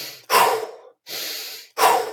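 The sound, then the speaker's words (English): Intense fire breaths in a forceful breathing exercise: three loud, sharp bursts of air, evenly spaced and separated by short silences. “So 4 of those intense fire breaths, 5 nasal, in the nose, out the mouth, power breaths.”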